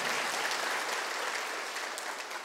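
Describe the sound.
Church audience clapping in praise during a Sunday morning sermon, a dense, even wash of many hands that continues without a break and eases slightly toward the end.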